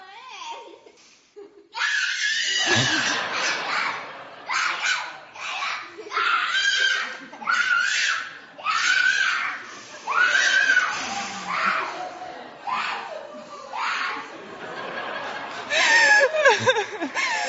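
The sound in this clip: Joyful high-pitched shrieks and squeals from a young child excited at Christmas, coming in many loud, repeated bursts with short laughter-like breaks between them.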